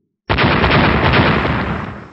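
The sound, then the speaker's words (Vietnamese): A loud explosion as towers crash into a giant creature's body and blow up. It breaks in abruptly as one dense, roaring blast that rumbles on for about two seconds and slowly fades. “Những tiếng nổ vang lên liên tục”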